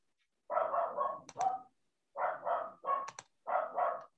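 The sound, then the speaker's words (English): Dogs barking at a home, loud sharp yaps coming in three quick bursts of several barks each with short silences between, and no voices. “I apologize if you can hear my dogs barking in the background.”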